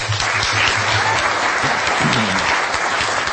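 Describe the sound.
Applause from an audience welcoming two speakers, a dense, even roar of many hands clapping that holds at full strength throughout.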